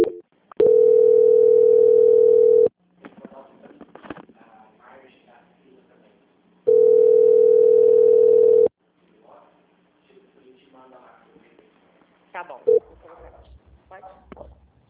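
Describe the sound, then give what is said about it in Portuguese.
Steady telephone line tone during a call transfer sounds as two long, even beeps of about two seconds each at one mid pitch, separated by a pause filled with talk, with more speech following. “Vou pedir para você seguir na linha que eu vou transferir para o controle de qualidade para eles finalizarem contigo”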